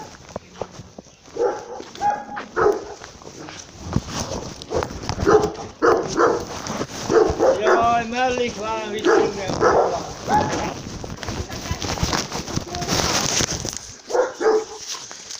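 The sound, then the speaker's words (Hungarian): A small dog gives many short, high yips and barks, with a whining, whimpering cry partway through, while a person talks over it. “Kis kutya.”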